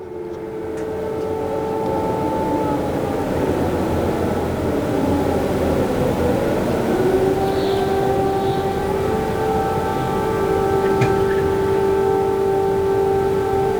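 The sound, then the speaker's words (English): Air raid sirens sound across Kyiv shortly after dawn, after missile strikes during the Russian invasion. Several long, steady, overlapping wailing tones hold at a constant loudness throughout, with no voices. “Sirens sounded all across the city shortly after dawn this morning.”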